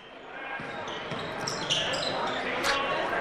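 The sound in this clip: Basketball dribbled on a court during a game: soft bounces under a constant wash of crowd noise, with a few high squeaks cutting through.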